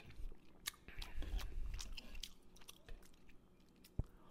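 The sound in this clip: Someone chewing dinner with moist, crunchy bites and soft squishing mouth sounds in an irregular rhythm, fairly faint, with one sharper crunch near the end and no talk.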